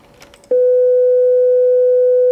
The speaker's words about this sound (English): If you take a mathematically simple sound like a sine wave, which sounds like this